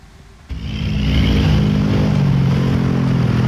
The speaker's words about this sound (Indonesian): Dua lajur jalan bebas hambatan ini dipadati kendaraan yang bergerak dari Jakarta menuju Bandung.